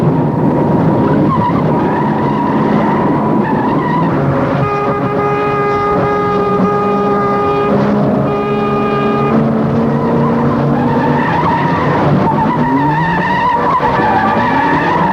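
Tires squeal and skid as a car swerves sharply while overtaking another car. A loud, sustained high-pitched squeal with steady harmonic tones sits over constant road and engine roar for the whole clip.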